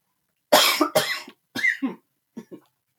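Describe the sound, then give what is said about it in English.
A person coughs in a quick run of several harsh, loud coughs, then fainter, shorter coughs that taper off, with silence before and after. “sorry, speaking of coughing and pandemic, just a normal cough.”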